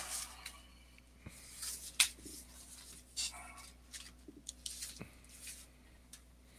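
Faint rustling and crinkling of a paper form being handled, with scattered short bursts and a few soft taps.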